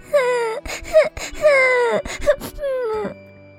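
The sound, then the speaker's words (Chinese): A voice imitates an elephant and a little ant crying sadly, with several drawn-out, wavering wails and sobs broken by short catches of breath. “他们哭得伤心极了。”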